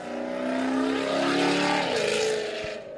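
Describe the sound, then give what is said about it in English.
Loud, rough engine roar from a Ford Mustang revving at a cars-and-coffee meet, a single sustained burst of about three seconds that swells and eases slightly in pitch before dropping off. “Here comes the Mustang. Okay. Going to be loud and proud.”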